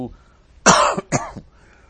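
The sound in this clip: Two harsh coughs from someone who swallowed something wrong. A loud, raspy burst is followed by a shorter second cough, with no talk.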